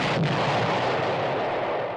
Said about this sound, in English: Kaboom! Yeah, that's the sound we'd hear if North Korea had their way